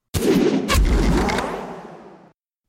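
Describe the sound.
Shackleshot, a hero ability effect from the video game Dota 2: a sudden, forceful whooshing blast with a second sharp crack just after, then a rumbling tail that fades over about two seconds.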